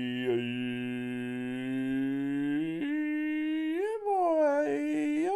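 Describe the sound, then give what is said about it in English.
Dogs whimpering in a cage: a loud, sustained, high whine that holds a steady pitch, then wavers and glides upward near the end, continuing alone without talk. “Super Callister, with me as always are the dogs. I got Ween Dog and Sea Dog are in the cage. I just put them in there”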